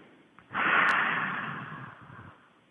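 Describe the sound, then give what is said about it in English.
One deep breath in and out, a soft airy rush that swells quickly and then tapers off over nearly two seconds, heard alone without talk. “take in a deep breath and feel the love, and then breathe that love out to our whole Radiance by Design community”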